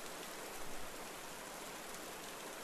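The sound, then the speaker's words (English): Bubbling brook running through a forest, a soft, steady rush of flowing water with an even hiss and no clear breaks, faint throughout, with no voices. “Water runs over shiny pebbles that glisten in the sun's remaining light. Hear the bubbling brook run through the forest as the sun begins to set.”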